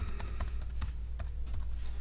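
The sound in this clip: Typing on a computer keyboard while entering a word into a diagram on screen, with many quick, light key clicks in an uneven but steady patter over a low background hum.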